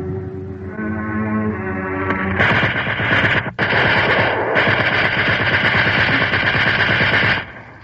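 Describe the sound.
Gunfire erupts in a long burst of rapid machine-gun shots, broken once by a brief pause, then resumes as a dense, loud rattle before cutting off.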